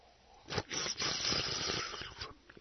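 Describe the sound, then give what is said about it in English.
A radio host loudly slurps coffee on air, one long hissing, sucking draw lasting about two seconds, heard alone with no talk over it. “Nobody else drinks coffee like that on the air.”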